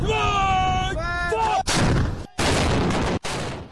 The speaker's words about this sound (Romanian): Soldații chinezi, angajați în exerciții militare cu muniție reală, o demonstrație de forță și a pregătirii Beijingului